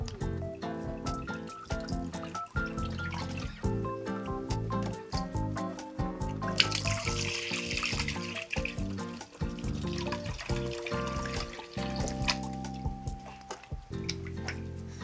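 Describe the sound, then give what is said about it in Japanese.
Water splashes and swirls as oysters are rinsed for miso soup, with the bowl filled, stirred and drained. The wet sloshing stays fairly steady throughout, with drips and sink sounds. “水を入れて少し洗って水を捨てるを23回繰り返してください。”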